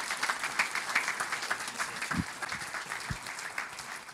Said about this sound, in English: So why don't you put your hands together and welcome Daniel Malone as he comes to speak.